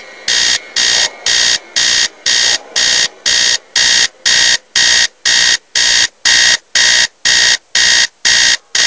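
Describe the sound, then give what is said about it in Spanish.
An alarm clock rings at 4:15 in the middle of the night in an old house, sounding many loud, evenly spaced electronic beeps at about two per second, alone and unbroken throughout. “Maldito despertador, pero si apenas son las 4:15 de la mañana.”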